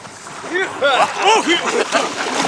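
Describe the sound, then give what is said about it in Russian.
Water splashes and churns as naked artillerymen run into a river, a continuous rough wash of sloshing under loud, shouting male voices. “Голые артиллеристы бегут к реке. Вбегают в воду.”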